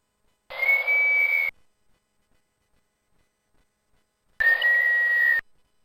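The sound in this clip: Sonification tones of two white canes lying parallel and horizontal: two separate bursts of buzzy electronic hiss, each carrying a steady sustained whistle-like tone, with a long silent gap between them.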